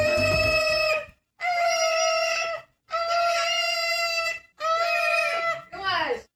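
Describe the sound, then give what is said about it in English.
A man and his pet parrot screech together in loud, high, shrill shrieks: four long held cries of about a second each, separated by brief gaps, then a shorter final cry that falls in pitch. “It is a lady's husband and his parrot screeching together.”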